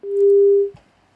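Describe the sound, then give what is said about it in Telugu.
A phone busy tone after a call drops: one steady, mid-pitched beep lasting just over half a second, followed by a soft low thump and quiet. “Hello, call cut అయిపోయింది.”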